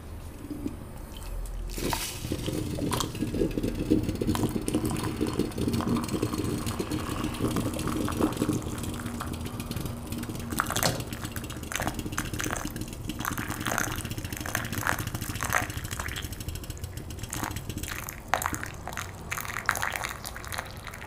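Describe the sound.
Continuous gurgling and bubbling from a small, heavy, thick-walled aluminium stovetop coffee maker as it boils and pushes brewed coffee out through the little spout at the top. The hissing, sputtering liquid noise runs steadily throughout at moderate level.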